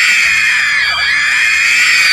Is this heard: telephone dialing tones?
no